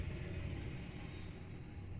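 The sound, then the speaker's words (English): Low rumble of a loud diesel truck passing, a faint, steady engine drone without a clear rise or fall. “I don't know if you heard that, but that was the loudest diesel truck I've ever heard in my life.”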